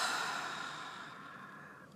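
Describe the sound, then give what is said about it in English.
A deep inhale during a guided relaxation exercise: one smooth, airy breath drawn in, strongest at the start and fading gradually over about two seconds. “do your best to breathe in and out and relax more deeply. Inhale.”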